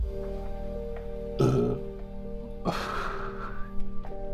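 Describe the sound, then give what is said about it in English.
A loud, deep burp from someone drinking: a short low burst followed by a longer, drawn-out raspy belch. “burp in your face real quick”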